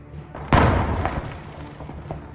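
A mortar shell explosion sound effect: one sudden, deep boom hits hard, then trails off in a fading low rumble, with a few faint knocks after it.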